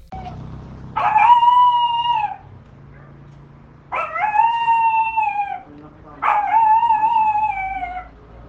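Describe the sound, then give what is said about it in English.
Three drawn-out whining howls from a small dog such as a chihuahua, each lasting over a second at a fairly steady pitch that sags slightly at the end, separated by short quiet gaps. “No, that's just okay, like a tiny a chihuahua or something. That's a dog.”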